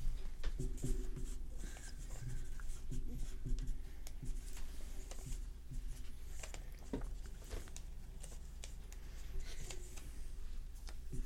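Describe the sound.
Pens scratching on paper as several people write things down, a soft, continuous patter of many small strokes and taps, faint and steady throughout without clear speech.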